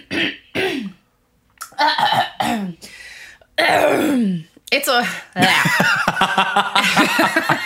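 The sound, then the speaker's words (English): A person clearing their throat and coughing in a series of rough, raspy bursts separated by short pauses. Some bursts are brief and others longer and more strained. “Keep all of that throat clearing in”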